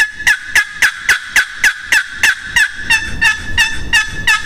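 Wooden turkey box call worked by hand, producing a long, evenly paced run of sharp, raspy clucks, loud and alone with no voice over them.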